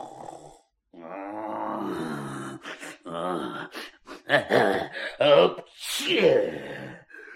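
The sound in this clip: A voice imitates a dragon snoring loudly with a rasping, wood-sawing quality: a long drawn, groaning snore followed by a string of shorter grunting snorts, some swelling into harsh, loud bursts.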